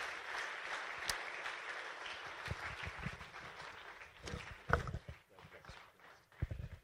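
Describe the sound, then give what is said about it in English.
A church audience in Bangalore applauding to welcome a pastor: dense, steady clapping that rises and falls, mixed with a few dull low thuds. “Why don't we put our hands together and welcome Pastor Yang, even as he comes and shares God's word.”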